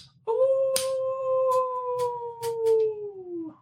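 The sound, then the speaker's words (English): A long, single howl like a giant wolf, used as an eerie sound effect during a tabletop role-playing game. The steady tone holds for about three seconds, then sinks slightly in pitch at the end, with a few faint clicks behind it. “like thunderous across the mountain. Almost like a giant wolf.”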